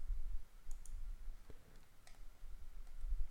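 Mouse clicks on a software checkbox, a few faint, short, dry clicks spaced out over a low background hiss.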